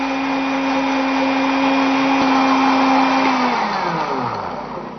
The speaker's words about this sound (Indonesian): Saya agak lama karena biar bawang putihnya benar-benar halus.